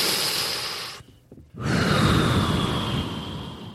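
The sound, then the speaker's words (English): A deep breath taken slowly: a long, airy rush of breath, a brief near-silent pause, then a second, fuller and lower breath that holds steady before easing off. “Let's just seriously take a deep breath.”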